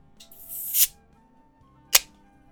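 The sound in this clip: A drink can is opened with a hiss. A bright, high hiss builds for about half a second and cuts off, and a single sharp crack follows a moment later.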